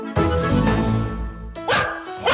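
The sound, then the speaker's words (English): A happy dog barks loudly, giving a long, full bark followed by a shorter, sharper one, with no other sounds around them. “That is the sound of one happy dog.”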